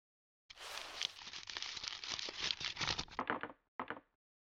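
Paper crinkles and tears as a delivered parcel is opened: a dense, crackling rustle runs for about three seconds, then breaks off, and one short final crinkle follows after a brief pause.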